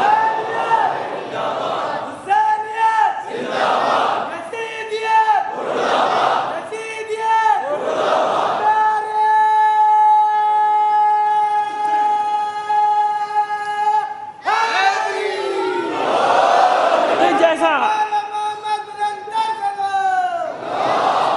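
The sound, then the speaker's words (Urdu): A crowd recites salawat on Muhammad and his family in unison, with loud rhythmic chanted phrases, then a long sustained held note before the chanting resumes. “آپ کو ایک سلوات بھیجیے محمد آل محمد پر”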